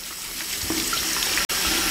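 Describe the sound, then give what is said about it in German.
Tap water pours steadily into a sink, wetting a doll's head before its hair is shampooed. A continuous broad hiss of running water is briefly cut off once, then it resumes. “Also Wassermarsch.”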